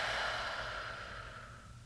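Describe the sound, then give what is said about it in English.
A deep breath is let out in one long, slow exhale, a soft airy rush that gradually fades over about two seconds, with no other sound. “let's take one final breath together. And exhale.”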